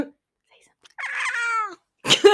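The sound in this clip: A cat gives one drawn-out, mid-pitched meow whose pitch dips at the end, followed after a short pause by a brief breathy sound.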